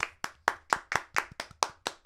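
Hosts clap to welcome listeners at the start of a wrestling show: a rapid, even run of sharp, crisp claps at a steady rhythm, with no voices.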